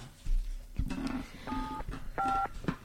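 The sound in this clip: Telephone number being dialed on a keypad: a few short, fairly faint tone beeps of differing pitch in quick succession.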